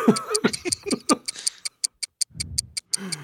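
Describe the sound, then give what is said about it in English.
A clock ticks in a steady, even rhythm of sharp, bright clicks, following a few seconds of people talking at the start, with a low murmur briefly underneath. “can anyone else hear that ticking? Yeah, I can. Ticking.”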